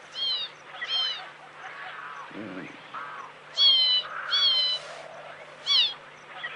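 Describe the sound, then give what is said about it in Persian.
A small bird chirps in a few bursts of high, bright calls, with a lower, rougher call between them and quiet gaps in between. “چیه؟ چی میگی هی جیک جیک میکنی؟ اینقدر جیک جیک نکن دیگه، آروم بگیر.”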